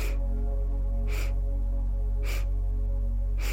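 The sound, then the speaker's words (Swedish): Short, sharp sniffing inhalations in a breathing exercise where one full breath in is split into sniffs. The sniffs are evenly spaced about a second apart over a steady low hum. “Så om vi tänker oss att en full inandning då består av 4 sniffningar på det här sättet.”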